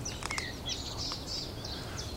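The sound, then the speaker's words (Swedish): Thrushes, starlings and greenfinches sing around a lake in May, a faint scatter of thin, high chirps and short trills over a low, steady rumble. “Och runt hela kyrksjön här så vimlar det av trastar och starar och grönfinkar.”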